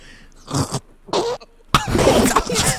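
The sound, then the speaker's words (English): Gagging and coughing right on a microphone after it is pushed into the mouth: two short throaty bursts with pauses between, then a longer, loud, rough run of coughing and choking noise. “Choking on it. I just made the noise.”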